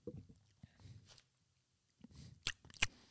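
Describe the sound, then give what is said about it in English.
A swig of coffee taken from a cup: a few soft, low gulping and swallowing sounds, a quiet pause, then two sharp wet smacks close together, all faint. “I do want to try to get another bag for the last two episodes though, because it is quality coffee. But you know what? All the people need to know how good it is. So let's go ahead and get a swig.”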